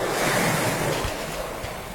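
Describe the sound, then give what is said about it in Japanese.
Ocean waves wash onto the western beach of Hateruma, a small southern island: a continuous, moderately loud surf rush with wind noise mixed in and no voices. “朗読とともに聴いていただくのは、波照間島の今度は西浜の波の音です。”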